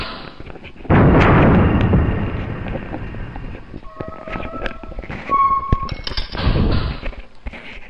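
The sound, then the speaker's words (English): A submarine's deck gun fires in a video game: two heavy, booming blasts with rumbling tails, separated by short electronic beeping tones and quieter thuds. “I'm going to show you how to use the deck gun. The deck gun is your other means of killing a enemy, getting a platform, whatever.”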